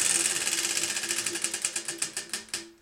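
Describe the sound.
A prize wheel spins with a rapid ratchet-like clicking that gradually slows, the clicks spreading farther apart and growing more distinct as the wheel winds down.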